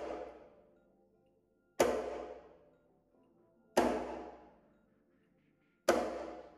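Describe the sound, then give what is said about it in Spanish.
Sharp slap strokes on a cajón box drum: three loud, bright hits evenly spaced about two seconds apart, each decaying into a short ringing tail, with the fading tail of an earlier slap at the start. “este es el slap en la caja.”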